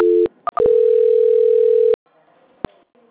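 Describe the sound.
Telephone tones during a call transfer: a brief low tone and a few short beeps, then a steady tone lasting over a second. A near-silent line and a single click follow.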